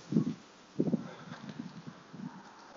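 Footsteps of a person walking outdoors in Sydney: a few dull, low thuds, the first two strongest, then softer, irregular steps with light scuffing, no voices.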